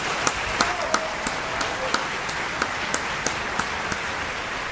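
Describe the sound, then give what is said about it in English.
Slow, evenly spaced single hand claps, about three per second, each a crisp sharp smack over a steady background hiss, keeping a regular beat from start to finish. “You can stop. It's over. You got your claps.”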